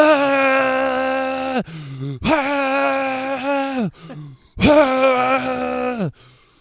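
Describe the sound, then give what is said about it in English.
A voice imitates a scream with three long, sustained wailing cries. Each holds steady and then drops in pitch at the end, with short breathy sounds between them. “Can you give us an example of the scream right now? Something. Just I really can't because my children are trying to sleep, but it was just sort of like a,”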